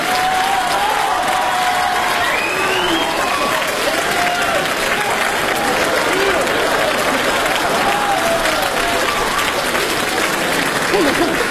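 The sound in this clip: Loud, sustained audience applause at a live variety show, dense clapping that stays continuous for over ten seconds, with voices sounding above it.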